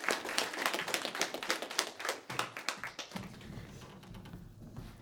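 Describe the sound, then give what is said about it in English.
Applause from a play audience welcoming the performers: a quick run of crisp hand claps that thins out and fades after about three seconds. “So put your hands together and welcome.”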